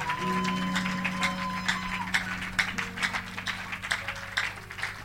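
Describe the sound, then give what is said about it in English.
Congregation clapping their hands during a convention church service, many soft claps in a loose rhythm over a steady low sustained tone. “Clap your hands. I think you have to clap your hands.”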